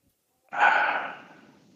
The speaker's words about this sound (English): Nice deep breath.